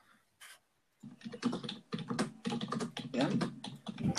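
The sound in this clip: Typing on a computer keyboard to search online: one isolated key click, a short pause, then quick, busy bursts of clattering keystrokes with no talking.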